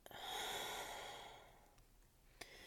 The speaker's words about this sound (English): Breathe in. Hold it. Breathe out.